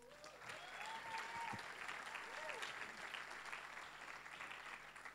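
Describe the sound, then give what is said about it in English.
Faint, steady audience applause at a church event in Melbourne welcoming a professional soccer player, with dense clapping held evenly throughout and a few brief vocal cheers rising over it. “Please put your hands together and welcome Roddy.”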